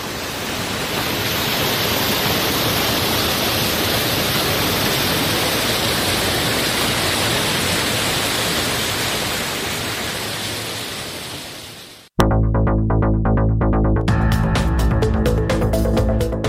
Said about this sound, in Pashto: د اورزګان د مزار بابا په نوم دا چینه د دې ولایت یو له مشهوره تفریحي او تاریخي سیمو څخه ده چې د ښکلي طبیعت او یخو اوبو په لرلو سره د خلکو لپاره د آرامۍ او ساتیري یو غوره ځای دی.